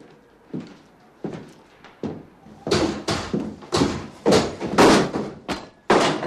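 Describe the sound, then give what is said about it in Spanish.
Heavy pounding on a door: many irregular thuds, soft and sparse at first, then growing louder, quicker and more forceful halfway through. “Seguro que es él. Conozco su modo de aporrear las puertas.”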